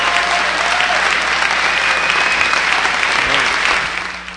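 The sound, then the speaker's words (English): An audience gives Michael Parenti a rousing welcome with loud, sustained applause that holds steady for several seconds, then tapers off near the end. “Here is Michael Parenti receiving a rousing welcome.”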